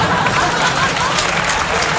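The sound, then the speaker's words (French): Audience applause at a comedy and song show, loud, dense clapping that stays steady and unbroken from start to finish. “Alors c'est vrai, les applaudissements, c'est une forme de dopage, mais avec de l'air.”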